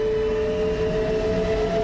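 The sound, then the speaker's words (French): A train with a freight wagon and a mail car sets off in the evening with a steady, powerful metallic rumble and a constant droning hum, loud and unbroken throughout. “Le convoi s'ébranle dans un puissant grondement métallique.”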